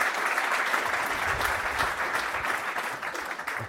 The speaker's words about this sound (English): So a big hand to Bob, and let's welcome Bob Galen to the show.